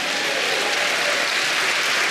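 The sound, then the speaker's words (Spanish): A church audience applauds the Lord with loud, dense, unbroken clapping that stays even throughout, with no voices on top. “Bendito, dele palmas al Señor.”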